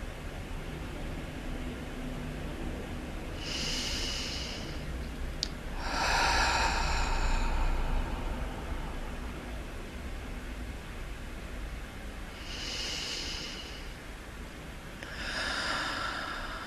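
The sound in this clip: Slow, deep breathing during a relaxation pause: a few soft, airy breaths rise and fade at long intervals over a faint steady hiss, with no talking.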